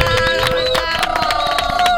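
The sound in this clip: A studio audience claps and cheers to welcome a punk-leaning all-female band into a radio studio. Quick, steady clapping runs through a loud crowd sound, with voices mixed in.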